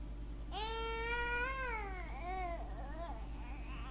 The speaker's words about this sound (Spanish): ¡Shh! ¿Escuchan eso? ¿Es el llanto de un bebé?